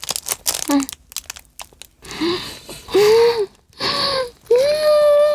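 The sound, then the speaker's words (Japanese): Crisp bites into a matcha melon bread filled with whipped cream and matcha cream. A few short crunches come first, followed by several voiced hums of enjoyment. “次は森藩お抹茶メロンパン、ホイップ&抹茶クリームをいただきたいと思います。メロンパンの抹茶ってすごい珍しくないですか？いただきまーす。”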